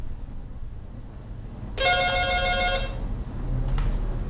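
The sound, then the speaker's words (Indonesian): Incoming WhatsApp call ringtone: a single bright, multi-toned electronic ringing burst lasting about a second over a low steady background hum. “Sri mau terima dulu telepon di WhatsApp ya”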